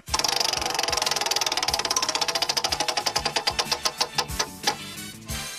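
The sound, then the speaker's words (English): A prize wheel clicks through a rapid run of ticks after being spun. The ticks start quick and even, then space out steadily as the wheel slows, ending with a few widely spaced clicks. No talking is heard. “We're going to spin the wheel, whatever it lands on.”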